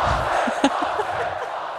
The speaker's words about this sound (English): Listen to the fans.